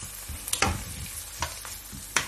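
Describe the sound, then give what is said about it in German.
Bacon frying in a pan for Krautfleckerl as it is stirred: a steady background sizzle broken by several sharp scraping clatters of the stirring utensil against the pan, spaced irregularly and fairly loud over the hiss. “Wenn dann auch mal gleich der Speck zu duften beginnt, oh, dann ist es sowieso um mich geschehen. So, schön umrühren und dann ein bisschen noch mit anbraten.”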